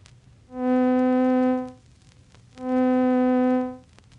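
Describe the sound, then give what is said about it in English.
A synthesized middle C tone sounds twice, each note swelling in slowly, holding steady for about a second with rich harmonics, then fading away slowly, separated by a short gap. “Taking the same note with which we have been working, the middle C, we find that slow growth, long duration, and slow decay give it a sound like this.”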